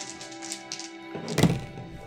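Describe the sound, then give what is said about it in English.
A twenty-sided die rolled on a table lands with a single dull thunk, moderately loud, over a soft, steady background. “I'm gonna borrow one of your D20s.”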